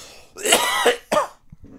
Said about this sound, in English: You were just coughing too